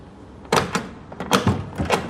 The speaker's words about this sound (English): A heavy-set teen boy opens the door.